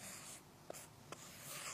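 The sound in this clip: Pen on paper: a faint, continuous scratching of handwriting, broken by two brief ticks of the pen.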